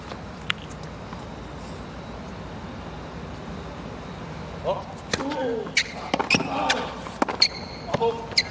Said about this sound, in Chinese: 好球，漂亮啊，外脚的一个上旋的发球把菲斯拉到场外，接下来这个反拍推直线衔接的很快，先打开对方的场地